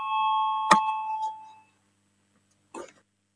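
Bell rung in the Latvian parliament to call a vote: a clear, sustained bell tone with a sharp strike, ringing for about a second and a half before fading, followed after a pause by one short knock.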